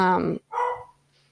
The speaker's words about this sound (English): Pardon my dog.